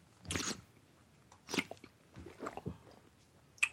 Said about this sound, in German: Mal trinken. Mal ausspucken.